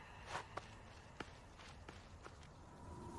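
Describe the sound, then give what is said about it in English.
Faint footsteps climbing steps up to a treehouse, a handful of soft, evenly spaced thuds spread across a few seconds over a low, steady background. “climbs steps to the treehouse.”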